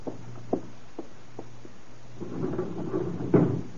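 A hotel room window being opened: a few light taps or clicks come first, then a longer rattling, scraping sound that ends in a sharp thump.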